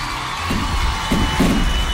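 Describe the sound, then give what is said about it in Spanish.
A crowd cheering and applause sound effect plays as loud, dense noise throughout, swelling in a few rhythmic pulses. “Hace falta cohete, aplauso. Ahí.”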